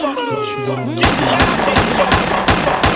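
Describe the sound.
Gunshots in a violent confrontation: about six sharp bangs in a fast, even rhythm, after a wailing, crying voice at the start.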